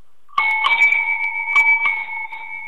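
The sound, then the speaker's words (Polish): A non-electric bicycle bell bought in Amsterdam rings with a bright, sustained two-tone chime. It is struck a few times so the ringing keeps renewing, then it slowly fades. “jaki sobie kupiłem ostatnio dzwonek w Amsterdamie do roweru.”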